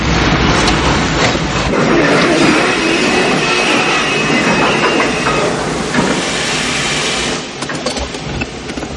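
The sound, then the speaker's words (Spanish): A railway train grinds to a halt with its wagon about to be opened. Loud, dense rumble and clatter with a faint high squeal run steadily for about seven seconds, then the noise drops abruptly quieter. “El tren para, abren el vagón y Esther baja.”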